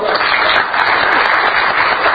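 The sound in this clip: An audience at a club meeting applauds to welcome a guest speaker, a loud, dense, even wash of clapping that holds steady throughout.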